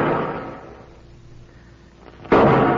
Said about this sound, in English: What's he shooting at now?